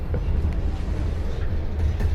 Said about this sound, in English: Alright, now we've got to wait for this train before we can get any comforts.